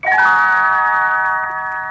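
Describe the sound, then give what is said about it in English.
Little bells ring out in a single bright, high chime that sustains and slowly fades over two seconds, sounding alone as a page-turn signal. “You will know it is time to turn the page when Tinkerbell rings her little bells like this.”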